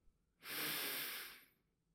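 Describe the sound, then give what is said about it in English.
A single deep breath in, drawn during a guided relaxation exercise: a soft, airy rush that swells quickly, holds for about a second and then fades, heard alone with no talk. “Take a deep breath in.”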